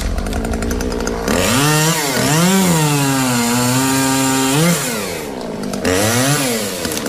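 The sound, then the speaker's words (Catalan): A chainsaw cutting trees revs into a loud, buzzing whine, its pitch climbing and dipping several times as the engine is throttled, holding steady through a long cut, then dropping back before a final rev. “És el so d'una motosserra tallant arbres”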